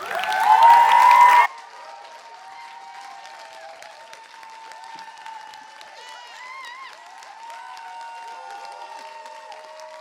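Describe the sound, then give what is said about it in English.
Audience applause welcomes a speaker onstage: a loud, dense burst of clapping and cheering lasts about a second and a half, then cuts off, leaving faint sustained tones. “So could we put our hands together and welcome up Anna?”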